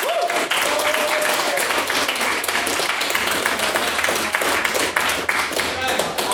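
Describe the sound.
An audience at a debate applauds with dense, continuous clapping from many hands. It stays loud and steady throughout.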